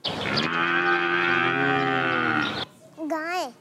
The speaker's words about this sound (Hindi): कौन है ये? गाय है।